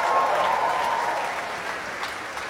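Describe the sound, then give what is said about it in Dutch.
Orchestra musicians applaud and cheer for one another at a concert after a Berlioz work. Dense, continuous clapping and vocal cheering are heard alone, easing slightly in loudness toward the end. “En het gejoel dat je hoort komt uit het orkest zelf.”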